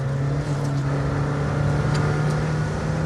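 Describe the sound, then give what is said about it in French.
A Senna hypercar engine drones on a wet, cold track, giving a steady, loud, low hum that holds an even pitch with no clear revving or pass-by. “Piste humide, bien froid. Je sais pas si c'est les conditions idéales, optimales pour tester une Senna.”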